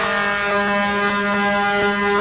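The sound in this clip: A horn sounds in one long, loud, steady blast with a buzzy, harmonic tone that holds unchanged for the whole stretch, with no other sounds.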